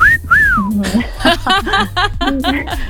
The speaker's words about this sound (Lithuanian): ar jums jau gatvėje švilpauja?